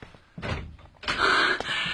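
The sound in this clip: A hotel-room door is opened: a short thud, then about a second later a louder, longer rattling burst that ends with a sharp click.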